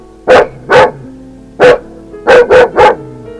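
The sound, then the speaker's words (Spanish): A large dog barks six times in loud, deep woofs: two together, a pause, a single bark, then a quick run of three. “¡Un perro de esos que matan! ¡Qué grande es!”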